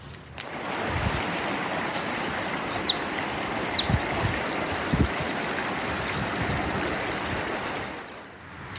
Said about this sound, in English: Today's mystery sound is a dipper in my estimation.